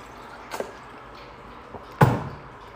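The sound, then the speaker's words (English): A Powerade drink bottle is opened with two knocks. The first is a light tap and the second, about a second and a half later, is a louder sharp clack with a brief rattle. “Opening a Powerade like a fucking savage.”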